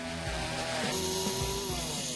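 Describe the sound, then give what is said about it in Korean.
An electric chainsaw carving a face into a bark-covered piece of wood drones steadily, its buzzing whine wavering up and down in pitch as it cuts, fairly faint and continuous throughout. “그 흔한 스케치, 밑그림 한 장 없이 들이따 전기톱부터 작동시켰는데요. 나무 껍질 아래 숨겨진 표정이 그에겐 보이나 봅니다.”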